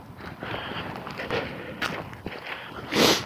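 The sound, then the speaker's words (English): Footsteps on a hard morning hike make a series of soft, brisk steps, fairly faint throughout, ending with a louder scuffing burst. “I'm hiking hard this morning”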